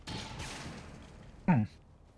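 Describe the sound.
A short, loud gunshot burst from a video game firefight with sniper and overwatch fire cracks out once, sharply, over a steady low background hum.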